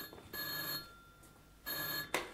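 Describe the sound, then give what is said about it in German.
Telephone ringing in a night watchman's office: two short bursts of a bright, fairly faint electric bell ring, separated by a brief pause. “Das ist das Telefon im Büro des Nachtwächters.”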